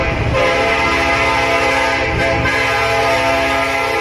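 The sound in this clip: A steam train puffing smoke, its wheels spinning in place, gives a continuous rumbling drone layered with sustained, whistle-like tones, steady and unbroken throughout.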